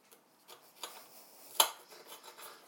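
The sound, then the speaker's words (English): Soft knife taps on a board as food is cut into sections: a few faint, scattered knocks, with one sharper click past the middle. “Cut these into sections. Just makes it easier. So, come on, cut.”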